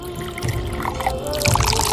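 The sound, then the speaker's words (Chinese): Clear broth, thin and almost water-like, pours steadily into a dish of nested stuffed poultry, giving a continuous soft trickling and splashing for about two seconds with no talk. “现在我们就把这个汤倒入这个菜品中。”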